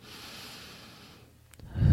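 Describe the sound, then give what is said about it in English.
A slow inward breath drawn through the nose in a guided relaxation, a soft airy hiss lasting about a second before fading out. “So if we can just take an inward breath through our nose”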